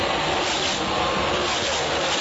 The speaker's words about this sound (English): And you got 40 cars on a half-mile racetrack. It's really, really tight.